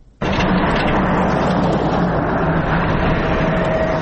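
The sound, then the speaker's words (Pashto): Loud, steady rumble of an aid-carrying four-wheel-drive vehicle driving on the rough, broken mountain road to Baghran district. The engine and road noise start abruptly and hold constant to the end. “د باغران ولسوالۍ ته پر غځېدلې کنډ او کفر سړک د روان هغه کومک لرونکي بایپور موټر ژغ دی چې اوس مهال مرکز لشکرګاه ښار ته د باغران ولسوالۍ څخه راورسېدلې.”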